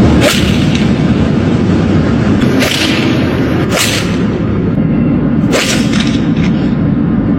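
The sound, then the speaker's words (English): Sharp cracks of balls being smacked downtown ring out several times at irregular intervals over a constant loud rush of noise. “Here they are smacking the balls.”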